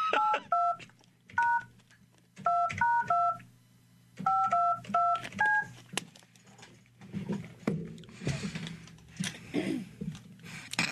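Touch-tone dialing as a phone number is entered: many short, bright keypad beeps in quick bursts, each a steady two-note tone with brief gaps, then a stretch of muffled clatter.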